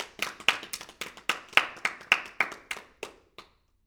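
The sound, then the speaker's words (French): Hands clap during a stage play performance: about a dozen sharp, separate claps at a steady, unhurried pace, thinning out to a final lone clap. “Applaudissons Bernard pour sa bravoure.”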